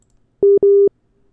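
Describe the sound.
A telephone busy tone sounds during a failed call as the telecom network in Nusa Tenggara Timur struggles after an earthquake: two steady, low-pitched beeps in quick succession, the second longer, loud and alone without any talk.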